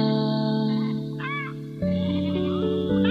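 Goat bleating: a continuous, wavering, nasal bleat lasting about three seconds that shifts between a few steady pitches, with a brief quieter dip in the middle.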